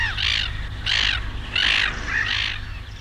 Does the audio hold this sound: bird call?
yes